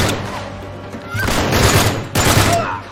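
Sniper rifle gunfire in a video game: a few loud, sharp shot bursts stand out over a dense, noisy background of game sound.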